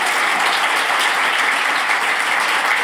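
An audience applauds to welcome a guest author, with dense, even clapping that stays loud and steady throughout.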